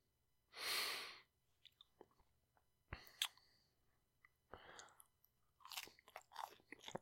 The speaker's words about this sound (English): Final bite of the sandwich.